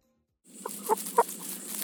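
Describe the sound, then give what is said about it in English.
Sentinel chickens, kept for mosquito-borne disease surveillance in Northeast Florida, give a few short, clipped clucks over a steady background hiss. “As Allie George reports, the first line of defense against mosquito-borne disease in Northeast Florida is a troop of chickens standing guard.”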